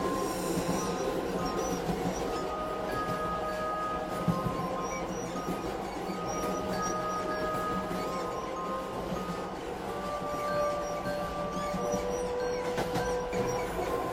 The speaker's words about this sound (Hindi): train चलने लगती है